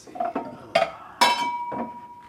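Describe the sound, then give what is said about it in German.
Drinking glasses clink as they are taken from a kitchen cupboard: a few sharp knocks, each with a short, bright ringing tone. No voices are present. “Im Geschirrschrank sucht er seine schönsten Gläser.”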